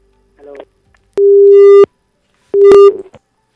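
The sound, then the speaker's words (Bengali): A loud telephone busy tone after a dropped call on a phone-in line: two steady mid-pitched beeps separated by a short pause, with a few faint clicks before and around them. “হয়তো নেটওয়ার্কের কারণে লাইনটা কেটে গেছে”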